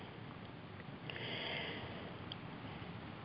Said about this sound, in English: Breathing deeply and exhaling out through that chakra as you let go of whatever comes up in this moment.